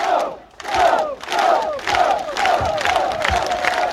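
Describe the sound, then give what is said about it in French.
Hundreds of Angers football supporters cheering on the square outside the town hall, a loud, dense crowd roar with regular, rhythmic chant bursts about every half second. “Ils ont été accueillis presque comme des vainqueurs tout à l'heure, avec des centaines de supporters les attendant sur le parvis de l'hôtel de ville.”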